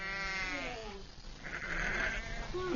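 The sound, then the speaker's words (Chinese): Bleating of a ewe in labour on an Asian grassland pasture in spring, a few drawn-out, strained and quavering cries, loud and harmonic, with the later calls higher and more wavering. “分娩中的母羊非常痛苦，在几个小时的挣扎和嘶嚎后，”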